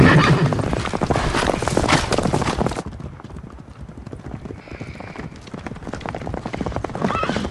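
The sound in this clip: Horses clip-clop steadily as riders head back through a valley. Many rhythmic hoof strikes run throughout, and a horse whinnies briefly midway when the hoofbeats soften.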